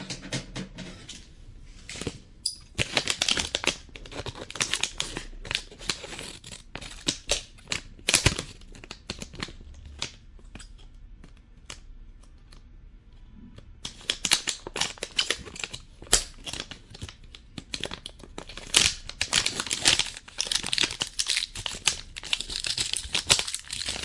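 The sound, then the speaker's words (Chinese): Crinkling and snipping as a plastic package of strawberry popping candy is cut open with scissors: many sharp, crisp rustles in two long busy stretches, with a quieter gap in between and no voices. “我死打不开，哎，剪刀”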